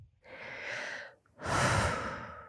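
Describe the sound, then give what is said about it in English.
A person takes a deep breath: a long, airy inhale, a brief pause, then a fuller, louder exhale, heard alone without talk. “Deep breath.”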